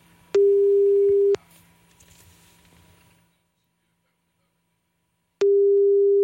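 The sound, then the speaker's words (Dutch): Telephone ringback tone while a call waits to be answered: two identical steady mid-pitched beeps, each about a second long and separated by roughly four seconds of near silence, with a low hum under the first. “Even bellen met Anita. Kijken of ze de telefoon opneemt. Anders dan spreken we gewoon een voicemail in.”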